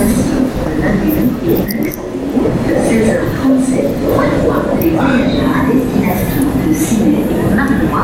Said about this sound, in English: All right, my train's arriving, so I'm going down to the platform.